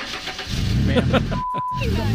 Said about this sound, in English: And then she got in and took off. Yeah. As she's, you know, peeling out.